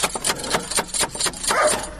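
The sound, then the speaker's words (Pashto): Knocking on a door in a quick, uneven series of sharp raps, with many knocks in about two seconds, ending in a brief, denser burst of noise. “ته ودرېږه چې بیا دروازه ور وټکوم.”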